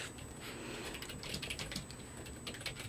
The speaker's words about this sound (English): Got that all typed out?